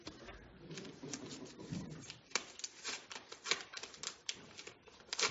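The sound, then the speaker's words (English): An envelope is opened by hand: a faint run of many short papery rasps, rubs and tearing scrapes in irregular bursts. “Step one, open envelope and follow all instructions.”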